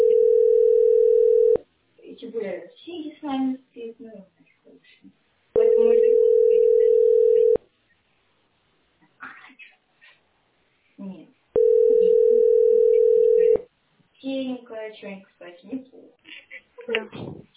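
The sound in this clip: Three steady, mid-pitched telephone ringing tones, each under two seconds long, sound before a call is answered. Voices talk in the gaps between the tones.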